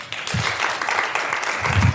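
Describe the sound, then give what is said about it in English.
Warm audience applause for a colleague: dense, steady clapping that keeps a fairly even level for the whole moment, with no voices rising above it. “may I also have your warm applause for Melina Simonovic-Klippel”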